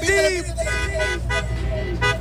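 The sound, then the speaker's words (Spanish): Car horns honk at a busy street intersection in Escobedo, Nuevo León, where people are gathering. Several overlapping toots of different pitch sound over a steady traffic rumble, and voices can be heard. “A ver, acción el claxon, amigo. Acción el claxon.”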